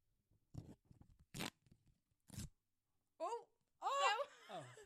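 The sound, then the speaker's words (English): A wrapper is torn open close to a microphone in a few sharp, crinkly ripping bursts with quiet gaps between them, followed by voices exclaiming. “Oh, that was a nice rip. I'm going to do the next one into the microphone. We'll stay silent so we can get a bit of ASMR.”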